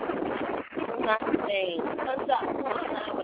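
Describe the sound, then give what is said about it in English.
Wind blows across a phone microphone, a rough, gusty rushing that fluctuates over ongoing talk on a narrow telephone-quality line. “I heard a lot of wind. Huh? Are you driving? No, I'm not. I'm talking to you. Oh, but we hear a lot of wind.”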